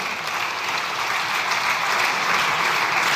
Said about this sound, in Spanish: A ver si que le aplaudieron.